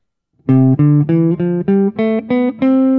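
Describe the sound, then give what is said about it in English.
A major scale played on a tonal instrument: eight clear, evenly spaced notes climbing steadily in pitch, each rich in overtones, with the last note held. Played alone without talk. “So a major scale, for the sake of argument, sounds like this.”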